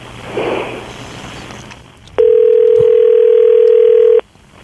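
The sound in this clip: A steady telephone tone from a call being placed holds one pitch for about two seconds, following a brief stretch of noisier sound and ending abruptly.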